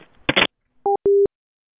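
Telephone call tones after dialing star sixty-nine: a short burst of noise, then two brief electronic beeps, the first very short with two pitches, the second a little longer and steady, with silence between.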